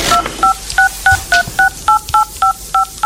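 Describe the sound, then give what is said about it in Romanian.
A telephone number is dialed on a keypad, eleven quick two-tone beeps in a brisk, even rhythm, loud and alone. “Să-l sunăm imediat pe Dragina. Să-l sunăm? Sună-l tu. Tu sună.”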